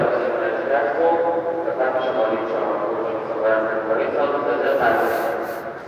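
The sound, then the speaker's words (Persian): A loudspeaker information announcement at a Tehran railway station: a steady amplified voice carries through the whole stretch, with a constant murmur of station noise underneath. “بله این صدایی هم که شنیدی صدای اطلاعات یا اینفورمیشن قطار بود.”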